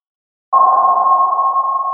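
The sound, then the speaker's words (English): A sonar ping of the kind a robot uses to sense where objects are. After a moment of silence, a single clear, mid-pitched tone starts abruptly and holds loud and steady to the end. “Sonar is a technology that uses sound to sense where objects are located.”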